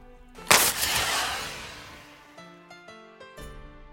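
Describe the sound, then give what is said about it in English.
A flare gun fires from a ship at a deserted landing platform: one sharp, loud bang, then a long, bright whooshing hiss that slowly fades. “And fired a flare.”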